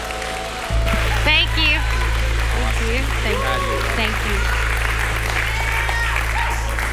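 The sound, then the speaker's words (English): A church audience on a Sunday morning applauding as a speaker is welcomed: loud, dense, continuous clapping with voices calling out through it and a steady low hum beneath. “Come on, give it up for Brandy McDonald as we welcome her today.”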